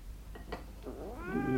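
A fat house cat, fed gristly scraps under a tablecloth at a breakfast table, gives a drawn-out, wavering meow that rises and strengthens at the end. A few faint brief sounds come just before it.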